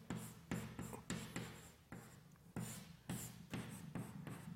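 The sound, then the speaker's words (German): Writing down a mathematical equation, a Gaussian function multiplied by a polynomial, during a quantum mechanics lecture. Quiet scratchy strokes come in quick bursts with short pauses between them. “Schreiben wir das erstmal hin.”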